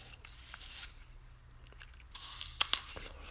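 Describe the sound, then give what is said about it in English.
Someone bites into a hard Granny Smith apple, giving two sharp, crisp crunches close together near the end after a stretch of faint rustling. “And this one is the hardest apple to bite into, the Granny Smith.”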